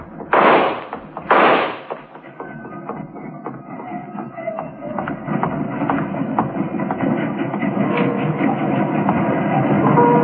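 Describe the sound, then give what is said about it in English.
Two sharp, loud gunshot cracks about a second apart ring out by a rail yard's passenger tunnels. A steady, rumbling clatter like rolling train cars follows and gradually grows louder. “At the end of the ramp, he stopped and drew his gun. After the shot, he turned into one of the tunnels”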